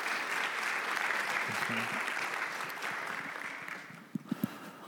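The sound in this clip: An audience applauds to welcome a speaker at a talk: dense, steady clapping that runs throughout, easing slightly near the end, with a few sharper claps standing out.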